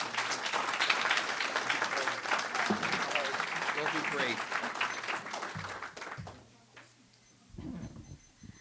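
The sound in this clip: An audience claps to welcome a new speaker at a gathering, a dense, steady applause lasting several seconds before it fades out and a voice begins talking.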